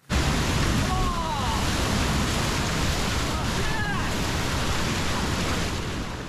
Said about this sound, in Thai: เนี่ยเหมือนจริงมากเลยนะคะเขาล้มลุกคุกคลานกันจริงๆกับกระแสน้ำที่ซัดเข้ามาใส่